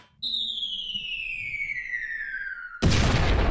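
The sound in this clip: Bomb sound effect: a long, high whistle glides steadily downward for about two and a half seconds, then breaks into a loud, roaring explosion blast that carries on to the end.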